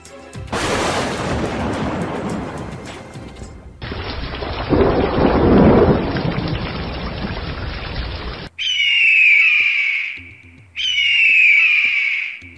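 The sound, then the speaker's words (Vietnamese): Thunder rumbles across the sky in a long, loud, rolling roar that lasts several seconds and then cuts off. Two brief, high, tonal calls follow, separated by a short gap. “Sét đánh ầm ầm trên trời.”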